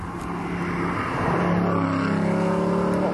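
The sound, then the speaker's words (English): An Aston Martin coupe with its ragtop on drives past, its engine a steady, humming drone that grows a little louder through the passage. “Oh, Aston Martin, no less. Coupe. With the ragtop. Oh, yeah, ragtop. Ragtop on. Sounded nice.”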